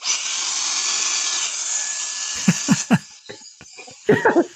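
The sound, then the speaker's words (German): A vacuum cleaner sucks up a cobweb with a steady, hissing roar for a couple of seconds, then drops away as a series of sharp knocks and clatters follows. “Red weiter, ich muss es wegsaugen. Ja, ja, ach, gleich saugen, mein Gott.”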